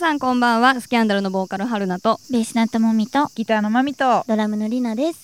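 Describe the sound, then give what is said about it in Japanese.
Cicadas chirping outdoors in a park in Tokyo, a faint, continuous high buzz running steadily beneath several people talking throughout. “セミ鳴いてますね。”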